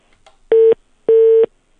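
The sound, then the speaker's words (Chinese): A telephone sounds steady electronic tones while a call is being dialed: two clear beeps of unequal length, then a third that is cut off, with silence between them. “W 老师是记录好之后呢，我们这边就要拨打了啊”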